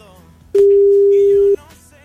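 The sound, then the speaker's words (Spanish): A telephone tone sounds as a call is placed, a single steady mid-pitched beep lasting about one second that starts and stops abruptly over faint background noise. “Vamos a ver si contesta Carmen, brother.”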